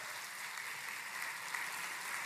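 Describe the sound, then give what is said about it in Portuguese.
Congregation applauding during a church service: a steady, dense wash of clapping that holds evenly from start to end, fairly faint, with no voices standing out. “Ah, isso aí! Vamos aplaudir.”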